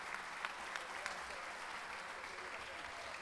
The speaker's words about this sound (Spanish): De nuevo, un aplauso para Paulo de Brasil.